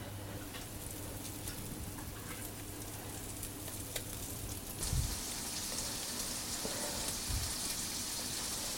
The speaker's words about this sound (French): Un peu de beurre pour poêler notre poisson. On va démarrer par la ferra qui est un peu plus épaisse.